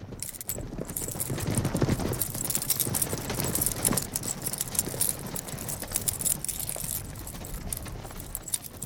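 Hooves clip-clop steadily as a mounted party of horses rides off, with metal tack jangling throughout. The beats are many, dense and loud, with no pause.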